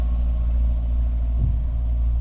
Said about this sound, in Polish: Musimy wyjeżdżać powoli, żeby nie zgubić wydechu.